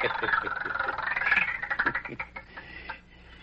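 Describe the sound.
A rigged wheel of fortune spins with a rapid run of ticking clicks that slow down into a few widely spaced ticks before the wheel stops, over a busy background.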